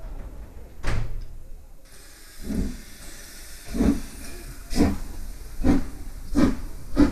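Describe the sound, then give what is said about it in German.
Steam locomotive pulling out of a station on a train bound for New York: an opening hiss of steam, then loud, rhythmic chuffs that come closer together as it gathers speed. “15 Minuten vor 6 traf die Reisegruppe am Bahnhof ein. Train to New York. All aboard.”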